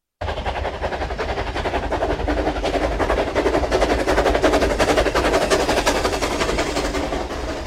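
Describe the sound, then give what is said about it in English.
A passing steam train makes a loud, continuous rumbling roar, laced with rapid rhythmic chuffing and clatter. It swells steadily toward the middle, then eases slightly, with no voices over it. “The sound you just heard was a recording of a passing steam train.”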